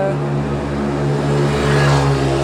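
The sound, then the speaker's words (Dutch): Moped engines rev while riding uphill, a loud, steady buzzing drone with strong harmonic tones that swell slightly toward the end, with no talk over it. “Houd niet op met die brommetjes hier.”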